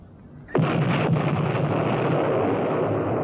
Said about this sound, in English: I didn't expect them to start shooting back. They're bringing the pass down on our ears.